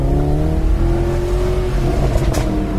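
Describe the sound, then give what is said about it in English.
Car engine popping on the overrun while driving: a loud, steady droning engine tone with a few sharp crackles and pops breaking through near the end. “Oh, the pops on the overrun.”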